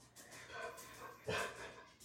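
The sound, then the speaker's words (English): Quiet dog panting: soft, breathy huffs repeat in a loose rhythm, and one louder, sharper huff comes near the middle. “you're going to hear episodes where you hear my dog in the background, so just bear with me.”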